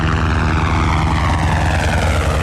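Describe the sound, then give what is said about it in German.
A firefighting helicopter thunders over a steep slope at Ischigkeppen during a wildfire drill, giving a loud, steady rotor throb with a rapid low beating and engine whine that holds constant throughout, with no voices. “Der Helikopter donnert gerade über Ischigkeppen.”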